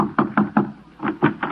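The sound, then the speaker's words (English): Knocking on a door: two quick bursts of three sharp, evenly spaced knocks, separated by a short pause, loud and clear with no voices. “Somebody thumped on my door.”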